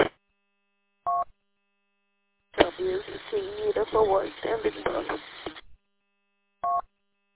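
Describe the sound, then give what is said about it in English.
Touch-tone beeps dial a number to place a phone call. There are a few short, clipped tone bursts with a stretch of talking between them. “I got to make a phone call and clear this job that I'm on.”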